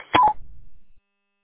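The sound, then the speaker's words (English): A roger beep closing a radio transmission on an amateur repeater network: a quick two-part electronic tone, clear and mid-pitched, followed by a short low rumble before the signal cuts to silence. “Can you kindly turn off your Roger beep? They're discouraged here on the MIA network.”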